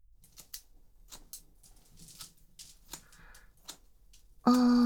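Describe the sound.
Scissors snip through a boy's hair in a series of faint, crisp, irregular clicks over quiet background. A sudden loud burst of noise cuts in at the very end.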